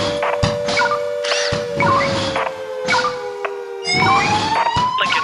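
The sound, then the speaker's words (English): A fire siren sounds during a Lincoln fire brigade dispatch for a shed fire: a loud, steady wailing tone that glides slowly downward, then jumps higher, with thumping bursts breaking in throughout. “4111. Activating siren. Lincoln fire message received. Make pumps 2. Make tankers 1.”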